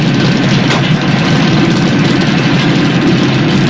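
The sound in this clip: Hot rod engines idling side by side at a drag race starting line, a loud, steady, deep rumble that holds evenly throughout with no voices.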